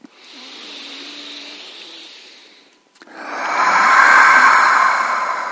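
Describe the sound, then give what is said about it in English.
Slow breathing during an exercise routine: a softer breath, then a long, louder exhale pushed out through the mouth, a breathy rush that swells and slowly tapers with no talking. “And then inhale to lift. Exhale through your mouth here. But slow.”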